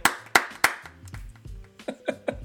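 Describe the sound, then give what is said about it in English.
Applause as sharp hand claps: the first three are loud and evenly spaced, followed by softer claps over low humming tones. “round of applause for DeAndre”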